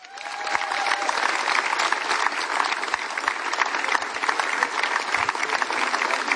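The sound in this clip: Audience applause at a music festival as a new performer is introduced: dense, steady clapping that swells at the start and holds at an even level for the whole stretch, with no voices over it.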